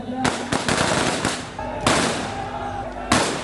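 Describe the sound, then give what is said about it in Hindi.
Soldiers of the Jat Regiment fire a ceremonial rifle volley one shot at a time as a funeral gun salute at an outdoor cremation. Several sharp, loud cracks are spaced apart, each trailing off in a lingering rumble. “ये 21 तोपों की सलामी जिसे कहते हैं वो शुरू की है जाट रेजिमेंट के जवान जो खड़े हैं, उन्होंने एक एक करके गोली चला रहे, 21 राउंड गोली फायर करेंगे वो अपनी बंदूकों से”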